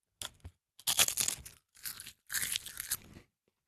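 Crisp bites and crunches of seaweed chips, a few short, brittle bursts of chewing separated by brief pauses, fairly quiet and with no talk.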